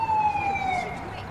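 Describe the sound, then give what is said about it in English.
An ambulance siren sounds as the vehicle arrives on a sports field during a game: a steady, high wailing tone gliding slightly downward, with a fainter higher tone above it and a low rumble underneath. “An ambulance arrives as Stargirl kneels beside Kovac.”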